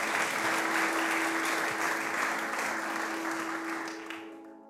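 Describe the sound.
Audience applause welcoming a returning meditation teacher: steady, dense clapping from a crowd that holds for several seconds, then thins and fades away at the end.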